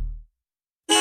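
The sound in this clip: Car horns honk in a victory celebration: a low tone fades out, a short silence follows, then a loud, bright, harsh honk starts abruptly and holds.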